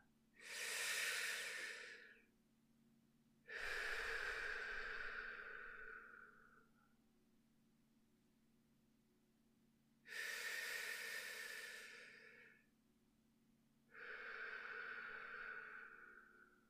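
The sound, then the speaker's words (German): Four deep, forceful breaths, each a long airy rush lasting two to three seconds, separated by quiet pauses, with no speech. “Atme erst einmal tief durch mehrmals und kraftvoll.”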